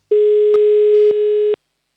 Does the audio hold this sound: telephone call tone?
yes